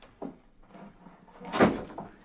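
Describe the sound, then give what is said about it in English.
A door being closed: a few soft knocks and scrapes, then one louder thump near the end, all fairly quiet. “Close that door.”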